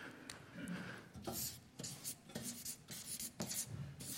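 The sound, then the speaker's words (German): Writing on a board: faint, scratchy rubbing strokes in irregular bursts separated by short pauses, with no voices. “ich schreibe da mal Gnade drunter”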